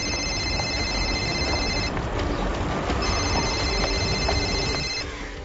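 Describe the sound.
A telephone rings in a hostel corridor with two long, bright trilling rings separated by a short pause, heard over a steady background hiss.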